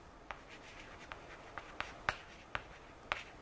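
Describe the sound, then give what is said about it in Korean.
Faint writing on a board, a string of short scratchy taps and strokes at an irregular pace, each a crisp little click against a quiet background. “자, 다시 한번 써볼게요.”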